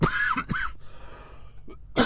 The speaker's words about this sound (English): I've got something in my throat. Just a second.